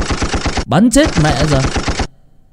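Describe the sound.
Rapid automatic gunfire sound effect: many fast, evenly spaced shots in a loud, steady rattle that ends abruptly after about two seconds, with a voice talking over the middle of the burst.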